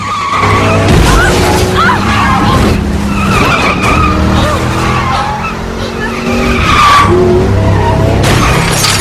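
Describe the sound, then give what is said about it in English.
A large 4x4 rams a car from behind and runs alongside it on a road, with loud, continuous tire squeal and skidding over roaring engines throughout. “A large 4x4 rams them from behind, then draws alongside, trying to push them off the road.”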